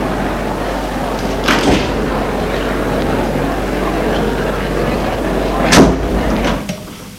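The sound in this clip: Door sounds at a dressing room as someone knocks and enters: two distinct thumps, an early one and a louder one near the end, over a steady, fairly loud background hum.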